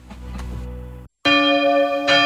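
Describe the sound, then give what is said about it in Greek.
Church bells ring loudly with a sustained metallic tone that cuts off briefly, then a fresh strike with bright, shimmering overtones rings on, swelling again near the end. “Δεν μπορώ άλλο με τις καμπάνες.”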